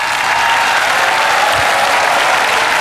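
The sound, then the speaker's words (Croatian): Audience applause at a concert in Split after a singer's performance: dense, steady clapping that stays loud and even throughout, with no voices standing out. “molim vas veliki aplauz za maestro Miran Hauser”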